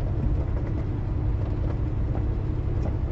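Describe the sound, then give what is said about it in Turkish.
Steady low engine rumble of an intercity coach bus pulling out of a bus terminal, a continuous even drone with no talk. “Mola seyahat otobüsü otogardan ayrılıyor.”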